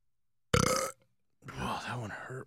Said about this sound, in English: I can burp on command, but not good ones. Let's hear on command one.